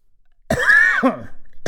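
A person's harsh, low cough or throat-clear rings out loud after silence, followed by a short second burst at the very end.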